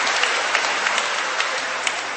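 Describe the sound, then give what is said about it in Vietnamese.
Round of applause from a church audience celebrating the feast of the Vietnamese Martyrs, a dense, even wash of many clapping hands, fairly loud and sustained throughout. “chúng ta cùng tung hô chúc mừng và một tràng pháo tay để chúng ta mừng ngày lễ này thật to, thật lớn.”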